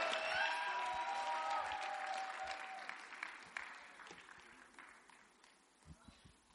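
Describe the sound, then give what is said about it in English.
Audience applause welcoming a speaker to share a testimony at a gathering with a choir, a steady wash of many hands clapping that fades gradually over several seconds. “Please put your hands together for him.”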